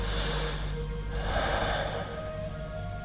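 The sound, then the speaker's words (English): A single deep breath is drawn in and released at a moderate level in a dramatic Jedi scene, set over a steady, sustained musical drone. “I close my eyes and take a deep breath.”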